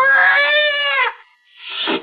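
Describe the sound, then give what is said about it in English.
A scrawny cat, back arched and fur on end as it circles a bushmaster snake, lets out a long, loud, harmonic yowl, goes briefly quiet, then gives a second, shorter and rougher cry. “Slowly, it moved into my line of vision. It was a cat.”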